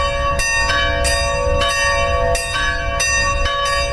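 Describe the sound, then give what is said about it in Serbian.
Serbian Orthodox church bells ring in Kalász to call worshippers to a Sunday feast-day liturgy for the patron saint, Holy Archangel Gabriel. Loud, bright strikes fall at a steady pace over a sustained, overlapping metallic hum, with no voices. “Zvona Kalaške svetinje su u nedelju na svečarsku liturgiju pozvala vernike iz obližnjih naselja, Pomaza, Sentenreje, Čobanca i Budimpešte”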